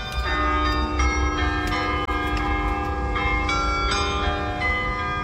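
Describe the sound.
Carillon bells in a church tower play a well-known song, struck live from the tower. Many bell strikes follow one another as a melody, each with a rich, shimmering ring of overtones sustained over a low background hum.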